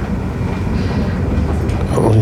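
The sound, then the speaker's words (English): A train runs on rails with a continuous, loud, low rumble and clatter. It stays steady throughout and swells slightly toward the end. “Oh, the train's running again now. It's strange.”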